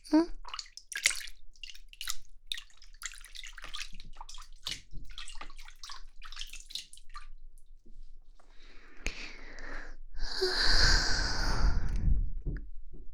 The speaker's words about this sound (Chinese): 我把洗澡水放好